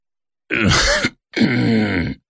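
An old man groans in two strained, throaty bursts while rubbing his eyes. Each is a short, voiced grunt with a gravelly edge, and the two are separated by a brief pause.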